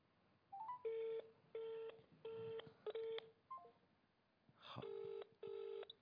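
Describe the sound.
Telephone keypad tones as a call is dialled: a run of several short, evenly spaced electronic beeps, quiet and clean, with brief higher blips between some of them and a pause before the last two tones.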